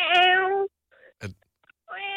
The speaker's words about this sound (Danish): Ikke en kat, er det? En lille katkilling. En killing.